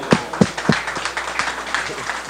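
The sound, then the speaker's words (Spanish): Light applause for a child during a radio program visit among children: a few sharp claps at first, then a softer, thinning patter of scattered clapping. “Un aplauso para Emmanuel.”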